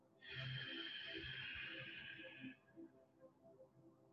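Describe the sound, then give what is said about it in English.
A hissing Ujjayi pranayama inhale through a contracted throat, one steady, soft, breathy hiss lasting about two seconds, followed by faint low sounds. “Now I'll teach you a small pranayama practice. It's called Ujjayi, where you contract your throat a little bit, and when you inhale, you make a hissing sound like this.”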